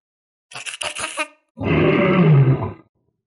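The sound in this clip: Monkey cries burst out as a quick series of shrill, choppy calls, followed by a deep, rough roar from another beast that holds for about a second and then cuts off.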